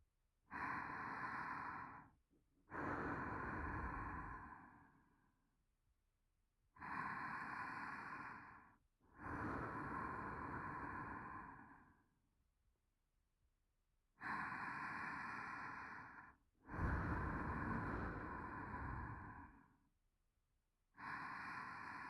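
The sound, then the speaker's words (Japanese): Short deep breaths in a guided breathing exercise: three loud, airy inhale-and-exhale pairs separated by silent pauses, with another breath starting at the end and no talk. “それでは少し短めの深呼吸もしてみましょう。”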